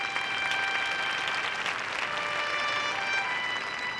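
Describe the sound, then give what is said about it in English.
Audience applause greets a guest actor and screenwriter arriving on a show, a dense, steady clatter of many clapping hands that holds at an even level for about four seconds, with no talk over it. “Here, fresh from Hollywood, folks, please put your hands together for David Fields.”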